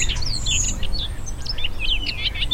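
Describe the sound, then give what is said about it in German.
Midday ambience in a garden: many bright bird chirps and quick twittering calls over a steady low rumble, with no voices. “Ich habe mal aufgenommen in meinem Garten, wie das klingt, morgens. So klingt das also morgens. Das ist jetzt an derselben Stelle, ein paar Stunden später mittags.”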